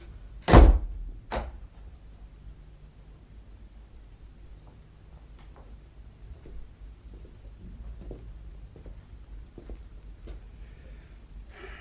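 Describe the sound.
A door is shut and locked. A heavy, loud thud is followed shortly by a second, smaller knock, then near-silence with a few faint scattered taps.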